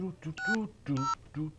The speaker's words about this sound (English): We'll get these numbers punched in. Okay, let's see if this person's home.